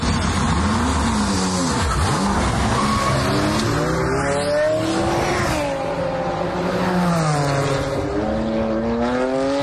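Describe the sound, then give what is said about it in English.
Racing cars at a motorsport race, tech-adapted vehicles, roar continuously with engine pitch sweeping up and down as they pass, mixed with screeching tire squeal, loud and steady throughout. “That's the sound of a car race by Team Brit.”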